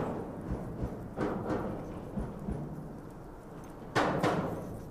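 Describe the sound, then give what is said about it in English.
Cows' hooves clatter over a bridge overhead, heard from beneath it: faint, hollow clip-clopping thuds, a few scattered steps, then a louder burst of hoofbeats near the end. “I'm now going under a bridge and it's got this lovely percussive quality. As the cows go over it. It's fantastic.”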